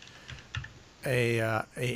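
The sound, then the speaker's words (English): Typing on a computer keyboard: a few soft, quick key taps, followed by a person's voice. “I'm typing your name out right now.”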